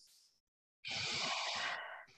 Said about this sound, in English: I take a mm-hmm. deep breath